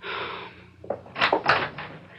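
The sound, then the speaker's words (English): A door being opened, heard as a few soft clunks and latch-like knocks that build to a louder pair of thumps and end with a sharp click. No voices are heard. “please open the door”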